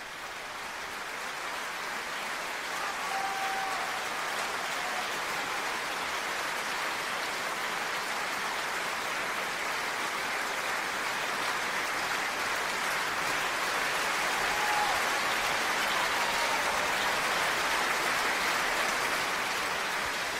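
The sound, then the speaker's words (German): Sustained applause from an opera audience in Salzburg greets soloists walking onto the stage. It is a dense, even wash of many hands clapping, steady throughout and swelling slightly toward the end. “Das sind die Solisten, die eben die Bühne betreten haben, und auch sie ernten viel Applaus.”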